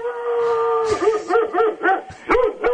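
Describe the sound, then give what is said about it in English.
Dog-like howling in a bedroom: one long, steady held note, then several short yelping cries that rise and fall in pitch in an uneven rhythm, loud and alone. “That's a dog. Dog, wolf, I don't know.”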